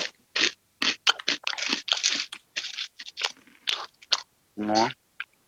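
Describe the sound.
Crunchy round snack being chewed: many sharp, crackling crunches in quick, uneven bursts, fairly loud and close, with a short voiced hum near the end.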